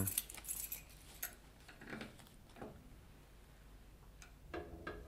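Keys jangle faintly as the key to a fire-damaged safe is brought out: a few light metallic clinks and rattles, separated by long near-silent gaps with soft rustling.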